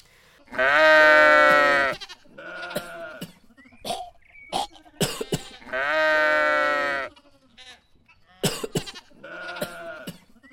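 Sheep in a barn bleat and cough, a whole flock sick with an illness: two long, loud, wavering bleats stand out, with several short, sharp coughs and throat-clearing sounds scattered between them.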